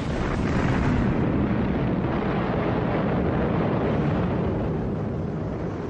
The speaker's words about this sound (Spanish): Unos 400 aviones norteamericanos se precipitan sobre él. Dos horas más tarde, el Yamato estalla.